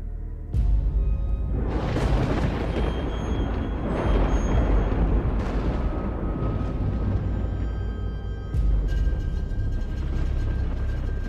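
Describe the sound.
A lightning bolt strikes a villa and the house collapses: an abrupt, loud, crashing rumble bursts in and roars on steadily, with a second heavy crash near the end.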